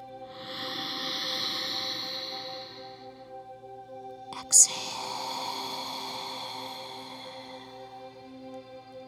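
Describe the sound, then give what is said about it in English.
A slow, soft deep breath taken during guided meditation, a faint airy hiss over a low steady hum, then a short sharp click and a gentler breathy release. “palms together at your heart center. Feel the fingers. Notice the skin. And take a breath with me.”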